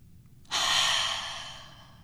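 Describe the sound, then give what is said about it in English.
A single deep breath taken during a guided relaxation exercise: a smooth, airy rush begins after a short silence and slowly fades over about a second and a half. “All right, now let's take a breath together.”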